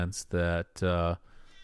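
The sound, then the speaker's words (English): Two meows from a cat, each a short, steady harmonic cry, the second following closely after a brief pause, with faint low noise trailing afterward. “there's a good chance that your cat agrees”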